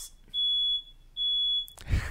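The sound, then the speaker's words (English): Fire alarm beeping while someone cooks and something burns: two long, shrill, high-pitched tones of equal pitch, separated by a short pause. “That's the fire alarm.”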